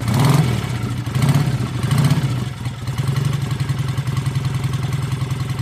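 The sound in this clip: A motorcycle packed for a trip revs its engine in three short bursts, then settles into a steady, throbbing low rumble. No voices are heard.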